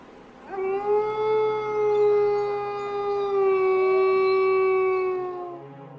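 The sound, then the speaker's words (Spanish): Wild wolves howl in a long, steady cry lasting about five seconds. The tone is clear and sustained with a gently wavering pitch and no voices alongside it. “los cuatro empujaron ambos cuerpos colina abajo, donde poco a poco se estaba formando un grupo numeroso de salvajes lobos”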